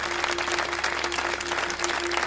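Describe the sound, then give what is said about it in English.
A group claps hands in praise at a Christian worship moment. The clapping is fast, dense and steady, with a faint sustained tone beneath it throughout. “just clap your hands for Jesus Christ”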